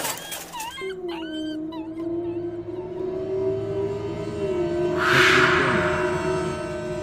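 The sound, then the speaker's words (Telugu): A dog on a road at night gives a few sharp yips, then a long, drawn-out howl that holds a steady pitch for several seconds, while a brief burst of high hiss rises midway. “ఇంతలో హఠాత్తుగా దారి మధ్యలో కుక్క సైకిల్కి అడ్డు రావడంతో రాహుల్ కింద పడ్డాడు”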